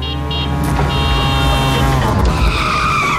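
Tyres squeal loudly as a tuk-tuk skids, a sustained, whining screech with ringing harmonic tones that shift in pitch over a continuous engine and road roar.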